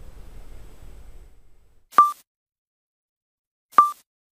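A pulsar signal received by the FAST radio telescope comes through as two sharp, tonal blips about 1.8 seconds apart, set against silence after a faint low hiss at the start.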